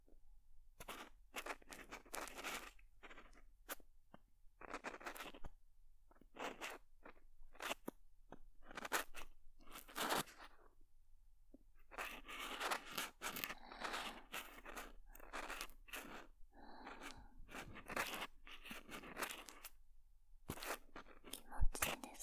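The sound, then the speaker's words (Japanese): Ear cleaning with an ear pick produces many short, crisp scratching and crunching scrapes in an irregular rhythm, quiet and close, with brief gaps between strokes. “それでは早速耳かきを始めさせていただきますわ。”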